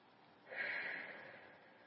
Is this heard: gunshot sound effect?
no